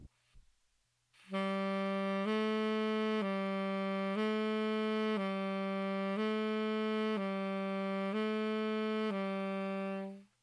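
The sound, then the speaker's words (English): Tenor saxophone playing a slow finger exercise, a steady string of evenly timed, sustained notes rocking between two neighbouring low pitches, played alone with a smooth, even tone. “And this is being played on tenor saxophone.”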